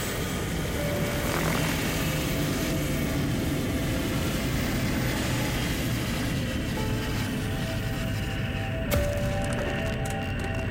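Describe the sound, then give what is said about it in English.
An airplane rumbles along the runway after landing, a steady, moderately loud engine drone. A brief sharp click breaks through near the end. “And a smooth landing it is. The aircraft is on the ground and is taxiing over Victory Field's golden runway”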